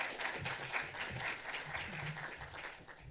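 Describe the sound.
Quiet, sustained audience applause welcoming a visiting author for a lecture at the Aquarium of the Pacific, an even patter of many hands without clear breaks.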